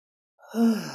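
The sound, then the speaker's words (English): A deep breath drawn in and let out as one soft, breathy sigh with a faint voiced edge, heard alone, taken as a calming pause during a talk about health. “Take a deep breath. I'm going to take a deep breath.”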